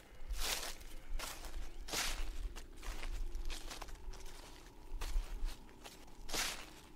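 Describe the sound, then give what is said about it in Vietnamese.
Footsteps crunching through dry leaves deep in a garden, a handful of soft, irregularly spaced steps with crackly rustling bursts, fairly faint and with no talk. “vang lên có tiếng chân người đi bộ, loạt xoạt dẫm lên lá khô.”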